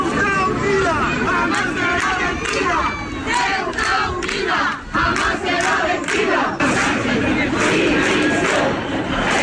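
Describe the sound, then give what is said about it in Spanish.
A large protest march crowd in Ceuta chants for the resignation of Spanish prime minister Pedro Sánchez, a loud, continuous mass of rhythmic shouted chanting that barely lets up. “Una manifestación que pretendía dejar fuera los signos políticos, pero las imágenes están teñidas de banderas de España y el sonido es el de los cánticos que piden la dimisión de Pedro Sánchez”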